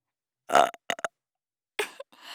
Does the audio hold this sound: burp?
yes

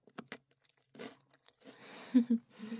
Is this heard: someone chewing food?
yes

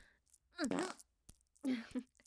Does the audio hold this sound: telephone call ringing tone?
no

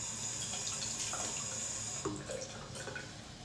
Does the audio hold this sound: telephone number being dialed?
no

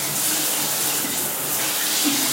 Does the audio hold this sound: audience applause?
no

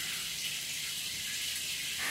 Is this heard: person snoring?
no

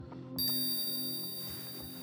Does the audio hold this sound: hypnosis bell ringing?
yes

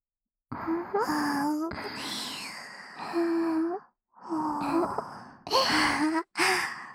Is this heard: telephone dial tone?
no

